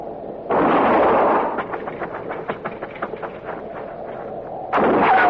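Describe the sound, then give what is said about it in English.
Gunfire in a western standoff in a thicket: a loud, sustained blast, then a run of rapid, evenly spaced sharp clicks, and a second loud burst at the end. “I'm gonna fire and roll away, maybe draw a shot.”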